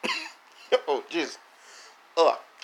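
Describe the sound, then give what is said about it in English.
A person clears their throat harshly after a hair gets stuck in it, giving a few rough, loud bursts of coughing and hacking separated by short pauses. “something got in my throat. That was gross. What the hell? Piece of hair.”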